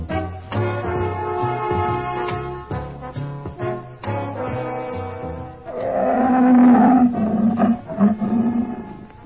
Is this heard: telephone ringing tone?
no

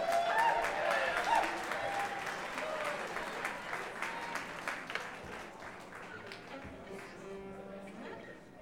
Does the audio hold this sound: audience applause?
yes

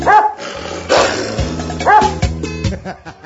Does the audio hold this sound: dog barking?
yes

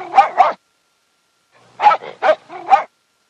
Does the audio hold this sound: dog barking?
yes

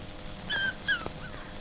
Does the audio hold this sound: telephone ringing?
no

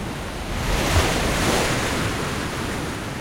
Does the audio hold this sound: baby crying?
no

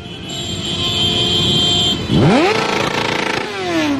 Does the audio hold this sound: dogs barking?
no

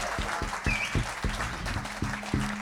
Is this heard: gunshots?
no

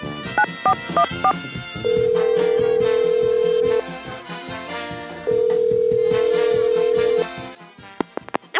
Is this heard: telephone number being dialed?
yes

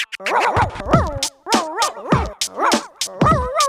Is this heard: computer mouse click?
no

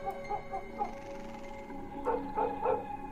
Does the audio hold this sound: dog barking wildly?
yes

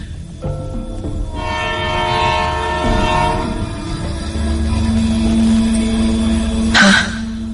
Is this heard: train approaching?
yes

